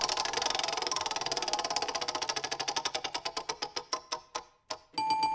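A spinning track-picker wheel ticks in rapid, even clicks that gradually space out and slow until the wheel stops, followed by a bright, sustained tone.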